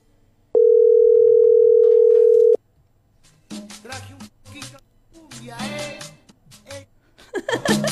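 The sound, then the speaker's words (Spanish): A telephone call tone sounds as a single steady, mid-pitched beep held for about two seconds, then cuts off; afterwards people talk loudly. “Contesta, contesta, contesta.”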